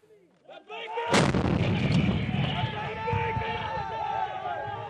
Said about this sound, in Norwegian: En rakett skytes fra toppen av et militærkjøretøy like utenfor Tikrit.